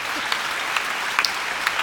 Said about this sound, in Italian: un applauso alla signora.